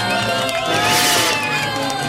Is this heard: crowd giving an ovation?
yes